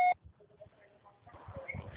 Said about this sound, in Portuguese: Deixe a sua mensagem na caixa postal.